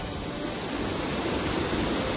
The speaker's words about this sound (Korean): 대륙폭포예요. 칠성제국에서 가장 아름다운 폭포, 대륙폭포.